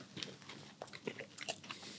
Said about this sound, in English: should we eat a donut? Yeah, I think we should conclude by eating a donut.